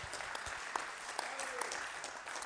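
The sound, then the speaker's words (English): A church audience gives a hand clap of praise: steady, dense applause with a few sharper claps punctuating the continuous sound. “Yeah, go ahead and give the Lord a hand clap of praise for that.”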